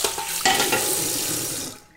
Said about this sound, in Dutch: Ik spoel de aubergine goed af, maak hem droog.